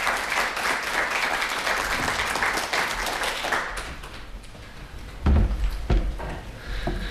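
An audience at a poetry evening gives dense, sustained applause, a steady wash of clapping that thins slightly midway, with a few sharper claps standing out toward the end.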